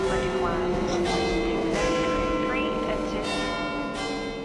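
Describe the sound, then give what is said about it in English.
Bells ring in the background in London, a steady, faint tonal ringing that sits beneath people talking and ordering at a counter. “And you can hear the bells in the background.”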